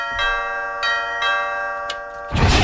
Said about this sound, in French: Sonnerie là, cette vieille sonnette là.